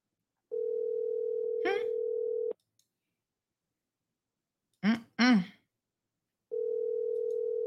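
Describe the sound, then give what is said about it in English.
An outgoing telephone call rings out unanswered. A steady low ringback tone sounds for about two seconds, then comes a long silence broken by a couple of short vocal noises, and the next ringback tone begins near the end. “Let's call him again.”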